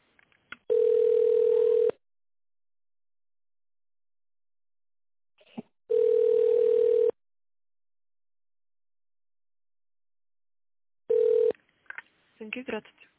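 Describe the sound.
Telephone ringing tone while a call is transferred: three long, even beeps separated by silent pauses, the last one cut short, followed by a brief voice.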